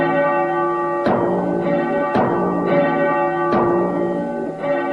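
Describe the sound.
Shaolin temple bells ring out, struck a few times with deep, long-humming tones that overlap and slowly decay between strikes. No drums or voices stand out.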